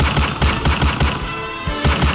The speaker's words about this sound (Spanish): Un ataque con arma de fuego, un ataque a bala, un ataque a tiros,